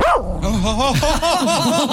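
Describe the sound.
A dog gives a continuous run of loud yowling, bark-like cries with a wavering, sliding pitch, heard alone for about two seconds.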